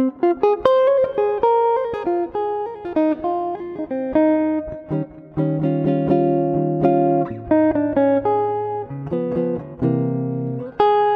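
A jazz standard played by a small ensemble, with clear melodic notes and chords moving over a sustained low bass line in a steady, even rhythm and no voices.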